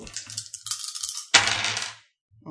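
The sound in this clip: Dice being stacked during a tabletop role-playing game session: light plastic clicks and clatters, with a sharper burst of rattling partway through that gradually dies away before a brief pause and a final faint click.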